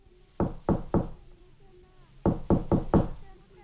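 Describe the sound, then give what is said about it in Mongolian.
Knocking on the door of a wooden ger, struck by hand: seven crisp, fairly faint knocks in two groups, three quick raps followed after a pause by four more at a steady rhythm. “Тэгээд санд мэнд үүдийн тогшоод”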